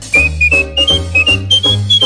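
A person whistles a tune in clear, high, sustained notes that step between pitches in short phrases, over a low, steady accompaniment, with no talking.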